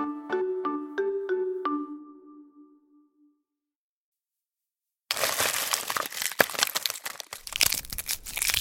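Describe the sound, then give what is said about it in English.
Crinkling of an old-fashioned hard candy's wrapper as it is unwrapped: a dense, continuous crackle of sharp rustles lasting several seconds. It follows a brief tinkling run of a few plucked notes and a short silence. “If you recognize that sound, you know it's the noise of candy being unwrapped. And not just any candy, but a hard candy.”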